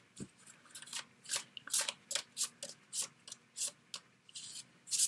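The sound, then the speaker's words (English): Cards being put down on a table: many soft, papery slaps and brushes in an uneven rhythm, faint and with no talk. “Let me put some additional cards down.”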